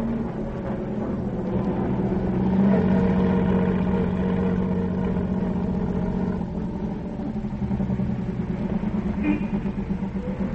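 A hired car's engine runs with a steady low hum and rumble, holding an even level without a clear change in pitch.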